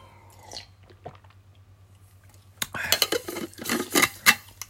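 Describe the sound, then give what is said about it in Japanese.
Iced coffee drunk from a glass: a few faint sounds at first, then a loud run of clinking ice and glass knocks. “今日はね。奥様が入れてくれたね、アイスコーヒーをね、はい、飲みますね。”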